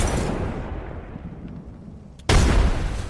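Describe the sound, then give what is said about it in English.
A grenade explodes in a video game. A rumbling tail from a blast fades away, then a sudden loud explosion bursts in with a heavy low boom. “I feel like the grenade will be the hardest. Tossing a grenade. Tossing a grenade.”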